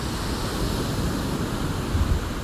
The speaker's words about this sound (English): Just have a moment now, just with the sounds of the ocean in the background,